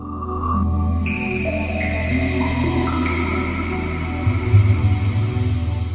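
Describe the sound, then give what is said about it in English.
A Sega Dreamcast game console's startup sound is a layered synthesized chord. Tones step upward one after another over a low sustained hum, swelling slightly louder near the end. “So that's the sound of a Sega Dreamcast booting up.”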